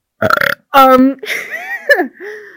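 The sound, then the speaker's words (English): A loud burp: one long, low, rough belch with a buzzing, throaty tone, set between short bursts of talk. “That was a burp. I don't know if the mic will pick it up. I'll do a better one though.”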